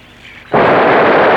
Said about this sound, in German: Feuert eine Salve ab und jagt sie heraus. Soll sofort geschehen. Er richtet selbst das Geschütz. Gleich werden sie feuern.